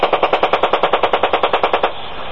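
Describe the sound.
A rapid, steady burst of machine-gun fire is aimed at a truck. The shots are many, evenly spaced and sharp, and they end abruptly, leaving a low steady hum.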